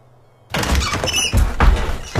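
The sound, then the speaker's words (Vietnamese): A window latch snaps open suddenly with a sharp clatter out of near silence, followed by a couple more heavy thuds and rattles. “Cánh cửa sổ bỗng dưng bật chốt.”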